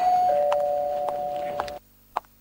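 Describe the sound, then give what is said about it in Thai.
Doorbell rung rapidly and repeatedly: a steady electronic ringing tone with several short clicking presses, then an abrupt stop followed by one more faint click. “เอ๊ะใครมากดกริ่งรัวขนาดนี้เนี่ย”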